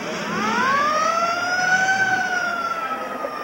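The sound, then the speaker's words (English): A city emergency siren wails loudly, its tone sweeping upward in pitch, then levelling off and dipping slightly as it continues. “Alerted by the siren, he rushes to investigate.”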